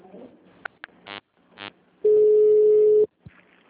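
Telephone tones on an automated phone line: a few short beeps and buzzy bursts, then a steady mid-pitched tone holding for about a second before cutting off, followed by a faint short tail.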